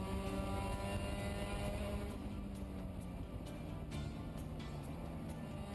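Race cars accelerating from a green-flag start toward the first left-hand corner in a 48-car field, a dense, loud, continuous engine roar that stays steady throughout.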